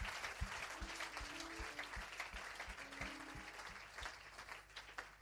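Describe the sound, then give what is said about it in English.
A convention audience gives a round of applause for a waiter: quiet, busy clapping with steady low thumping beats and a faint sustained tone running beneath it. “A round of applause for the waiter this morning.”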